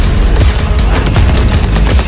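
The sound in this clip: Gunfire from a competitive shooter video game: loud, dense bursts of rapid shots and deep booms packed together without a break, no voices.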